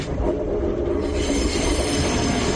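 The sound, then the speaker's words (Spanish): A passenger commuter train passes on the restored suburban line between Valencia Nord and Catarroja, with a loud, continuous rolling rumble and high, steady wheel squeal throughout, without voices. “Sobre las 6 de la mañana llegaba el primer tren desde Valencia y así lo harán de momento cada 30 minutos uniendo Alfafar, Benetúser, Massanassa y Catarroja.”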